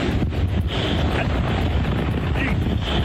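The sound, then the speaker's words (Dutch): Storm wind roaring outdoors on a street in the middle of a storm, a loud, continuous gusting rush that buffets the microphone without letting up. “Weerman Jim Cantori deed live verslag, niet vanuit de studio, maar op straat, midden in de storm”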